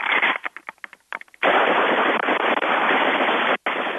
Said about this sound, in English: What was that? A rocket? AK-47. Damn. Nice. Good times, man. We haven't had someone call this show and fire weaponry in years.